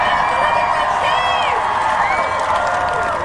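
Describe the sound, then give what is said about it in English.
Crowd cheering and applause at a large onstage event as a woman is brought out, a loud, sustained roar of clapping with scattered whoops and shouting voices running steadily throughout. “Can you guys give her the biggest round of applause you can give to anyone tonight?”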